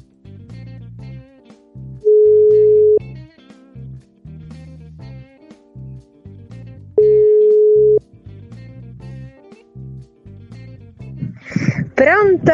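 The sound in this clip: While a call is being placed, a phone plays its ringing tone: two long, steady, even-pitched tones, each lasting about a second and spaced several seconds apart, over continuous background sound.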